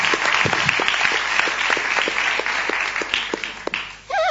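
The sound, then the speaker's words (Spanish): An audience applauds at a carnival parade. Dense, sustained clapping rattles steadily for several seconds, then drops off abruptly near the end. “Un aplauso para todos ustedes.”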